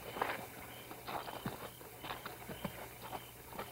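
Two people go for a walk, their soft footsteps landing in an irregular, overlapping patter, faint and quiet over a low steady hum.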